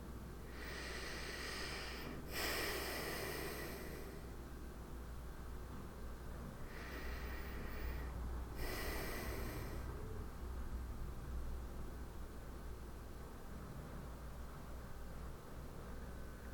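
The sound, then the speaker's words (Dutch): Two slow, deep breaths during a guided eyes-closed exercise, each a soft airy inhale followed by an exhale. A long pause separates the breaths, and a faint steady hiss runs throughout. “Dan wil ik je nu vragen om je ogen te sluiten en om twee keer diep in en uit te ademen.”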